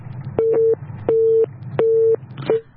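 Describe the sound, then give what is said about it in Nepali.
Telephone busy tone sounding after a call disconnects: three steady, evenly spaced mid-pitched beeps and a fourth cut short, all at the same pitch over a low background hum. “भर्खरै telephone सम्पर्कबाट सम्पर्क विच्छेद भएको छ”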